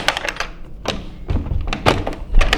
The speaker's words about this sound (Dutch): Wilt jij misschien even de deur voor mij openen? Want dat wil ik doen. Dan moet ik mijn handschoenen niet uit doen. Het zou kunnen dat die vast is.